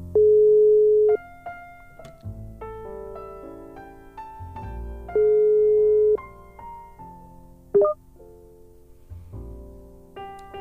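An outgoing phone call rings out with two steady one-second ringback beeps about five seconds apart, heard over soft background music.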